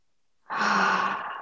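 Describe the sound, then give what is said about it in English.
A single long, breathy exhale through the mouth as part of a slow, deep cleansing breath, steady and soft before fading at the end. “Inhaling through the nose, exhaling out through the mouth.”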